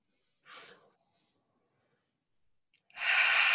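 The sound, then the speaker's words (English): Deep breaths taken by a group: a short, soft airy breath, a long near-silent pause, then a louder, sustained rushing breath that carries on to the end. “let's take a deep breath together”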